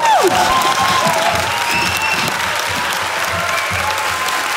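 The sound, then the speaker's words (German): A theatre audience applauds the cast after a performance, loud, dense clapping that keeps up at a steady level throughout. “Und bitte einen riesigen Applaus an das gesamte Ensemble. Und bitte noch einen riesigen Applaus für unsere tolle Regisseurin Ida Kronberg.”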